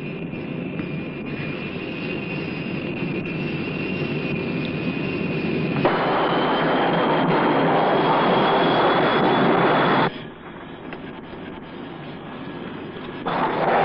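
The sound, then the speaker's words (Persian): An airplane approaching to land: a loud, steady engine roar with a high whining tone that steps up in pitch partway through. The noise then drops suddenly and swells again. “پیمای آمریکایی، ما برمیگردیم به پایگاه. شما میتونید فرود بیایید. ما فرودگاهو میبینیم.”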